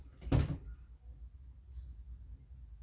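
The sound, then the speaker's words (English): A door is opened to let a cat out: one brief, soft thud, followed by faint, quiet room noise. “Felix, who wants to get out, so I will have to open the door for him.”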